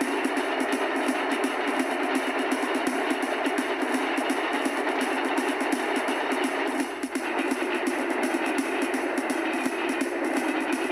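A truck engine heard from inside the cab of a rig: a steady, unbroken drone with a constant hum and a brief dip partway through.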